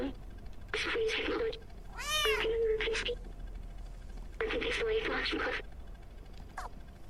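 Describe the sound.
A cat meows in a video game where the player carries a small backpack holding a robot; one short, bending meow rises between two stretches of talk, with faint background noise throughout.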